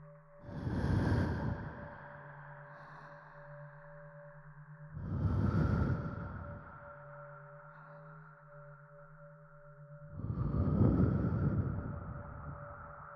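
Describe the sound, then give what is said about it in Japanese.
Breath blown close to the microphone in three soft, airy gusts spaced several seconds apart, each swelling and fading over a steady low tonal drone. “息を吹きかけられるたびに快感が湧き上がってくる。”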